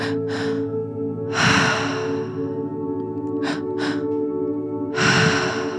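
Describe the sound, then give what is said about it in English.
Guided breathwork breathing in a set pattern: pairs of quick, sharp breaths alternate with longer, deeper whooshing breaths in a repeating rhythm, all over a steady, sustained musical drone. “Once you feel like you've got it, we're going to start the breath pattern.”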